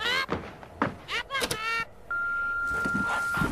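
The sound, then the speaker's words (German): A phone signals an incoming call with a steady, high electronic tone held for over a second, after a few short clunks and voice-like sounds at the start. “Hey, ein Anruf.”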